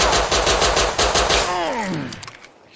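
Rapid automatic gunfire in a firefight: a fast, steady stream of loud shots for about a second and a half, then a brief wavering tonal sound as the firing fades out.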